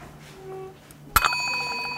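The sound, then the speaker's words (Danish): A small broken bell struck with a spoon gives a sharp metallic hit, then rings on in a steady, high, overtone-rich tone. “I har en lille klokke, men den, ja, du griner, den fungerer måske ikke helt, som den skal. Nej, det er en ødelagt klokke med en ske på”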